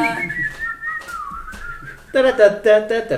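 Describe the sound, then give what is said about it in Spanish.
A person whistles a tune imitating a cartoon mouse steering a boat. It opens with a sliding, wavering line of long notes, then turns into a louder run of short, repeated bouncy notes in the last second. “¿Cómo chifla Mickey Mouse en las películas ahora? Que va en el barquito.”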